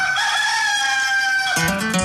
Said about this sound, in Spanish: Vamos, vamos adelante con el gallo de Radio Activa en esta mañana de miércoles.